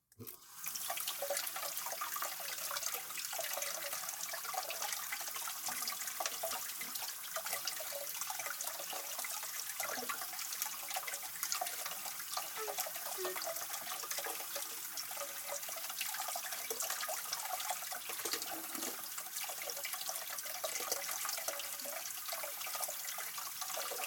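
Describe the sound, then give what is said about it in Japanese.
An item washed under a running tap at a sink, a steady continuous hiss of flowing water that holds an even level throughout, with no talk. “あなたの分も必要だから、もう一つ洗うわね。”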